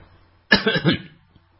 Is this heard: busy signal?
no